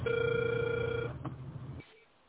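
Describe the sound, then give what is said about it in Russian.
A telephone ringback tone while calling: one steady electronic tone lasting about a second, then breaking off into faint low hiss. “Продолжаю дозвон.”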